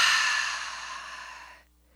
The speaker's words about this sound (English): Let's all take a deep breath in and out.